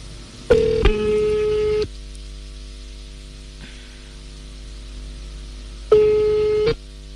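Line tones of a telephone call being placed: two longer steady beeps separated by a long pause, heard over a constant electrical hum and static hiss, with no voices.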